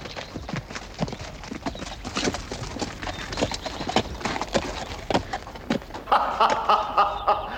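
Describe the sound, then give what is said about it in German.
Hoofbeats of a single horse carrying a rider, a steady run of many clip-clop strikes in an even rhythm, fairly loud and heard alone without talk. “Still! Horcht! Ein einzelner Reiter!”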